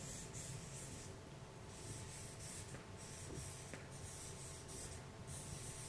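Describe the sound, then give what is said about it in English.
Handwriting, a faint continuous scratching as words are written down, heard alone without speech. “I'm going to write it down here. It's the word parash.”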